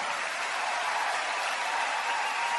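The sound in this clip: Applause for a guest and a national folk ensemble: a steady, dense wash of clapping that holds at an even level without breaks.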